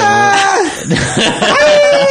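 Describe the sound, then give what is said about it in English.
Strange, loud human scream with a wavering pitch that slides downward, broken midway by rough, choppy bursts before a steadier high cry returns. “It was the weirdest scream.”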